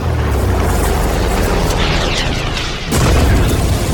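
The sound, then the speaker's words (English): Missile airstrike explosion in a combat video game: a loud, sustained booming roar that dips briefly near the end before a second heavy blast bursts in. “Preparing for airstrike. Target acquired. Missile fired.”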